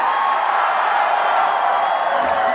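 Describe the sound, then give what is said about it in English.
A concert crowd roars and cheers for a song from an album at a 2013 live show. The sound is a loud, dense and unbroken wall of cheering and whooping that holds steady throughout. “Listen to that crowd. They went nuts.”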